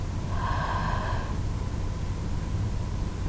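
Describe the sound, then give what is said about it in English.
A deep breath drawn in during a slow breathing exercise, airy and fairly soft, heard alone over a steady hiss of background noise. “Again, big breath in.”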